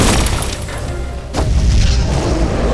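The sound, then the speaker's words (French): A heavy boom from a weapon fired at full 100% charge at a giant charging creature in a fantasy audio drama: a loud, dense rumble with one sharp burst partway through, no talking. “Vise sa gueule Je charge à 100% Tire”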